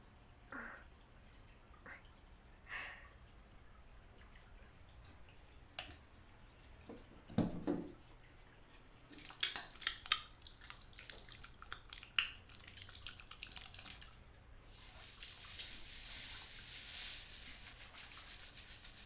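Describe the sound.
Hair is washed with water, with soft irregular rubbing and scrubbing and scattered light scratches and taps, then a steady hiss of water near the end.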